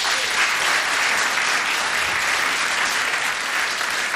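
Audience applause at a concert, dense steady clapping that stays loud and even from start to finish with no pause.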